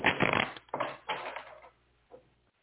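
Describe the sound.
Cards shuffled and pulled during a card reading: a few rough, papery riffling bursts, loudest at the start and then tapering, ending with one faint soft flick. No voices.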